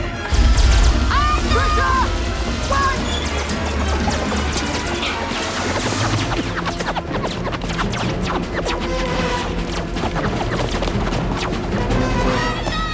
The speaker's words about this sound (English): The Vogons fire at them as they dash across the Vilt Vodal landscape towards the Heart of Gold.